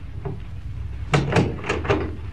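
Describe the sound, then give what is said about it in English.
A door is closed, giving a few quick knocking thuds in close succession over a low, steady background hum. “Come in and close the door.”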